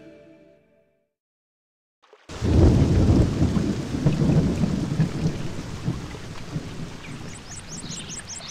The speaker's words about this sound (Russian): Ой, слава богу, буря, кажется, улеглась.